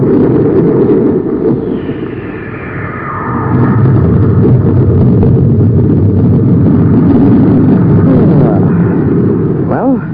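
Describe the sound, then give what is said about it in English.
Spaceship rockets fire with a deep, heavy roar that swells up after a quieter start and then holds loud and sustained to the end. “This is the rocket control. Brace yourselves. I'm going to fire rockets.”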